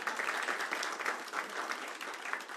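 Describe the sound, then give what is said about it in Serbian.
Audience applause for a waiter's birthday: a steady, dense wash of clapping hands that holds at an even, fairly soft level throughout, with no distinct gaps or pauses. “Sad aplauz, ljudi moji.”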